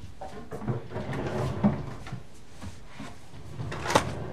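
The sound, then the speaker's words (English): A drawer opened to take out rubber gloves gives faint clicks and soft sliding rattles, with a sharper knock near the end. “removes rubber gloves from a drawer and puts them on.”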